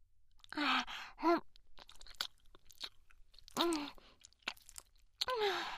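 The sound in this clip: Chewing food while eating: irregular crunchy, moist mouth sounds mix with voiced sighs and murmurs rising and falling between bites.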